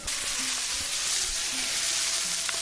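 Curry paste frying in a pan, catching and scorching, gives a steady, bright, hissing sizzle that stays even throughout, with a few faint crackles and pops beneath it.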